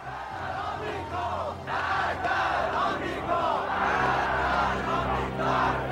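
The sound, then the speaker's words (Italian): Deafening noise from a large crowd at an airport, a loud, roaring mass of shouting and cheering voices that surges and stays dense throughout. “cominciamo a sentire un rumore assordante che quasi sovrastava quello dell'aereo. Era il rumore della folla.”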